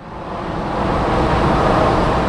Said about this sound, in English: This is the sound of cars and trucks crossing the I-5 bridge over the Columbia River between Washington and Oregon.